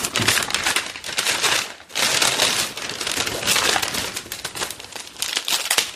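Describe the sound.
Plastic packaging crinkles and rustles as it is handled, a dense, continuous crackle with uneven bursts of louder crumpling and a brief pause near the middle, with no voices.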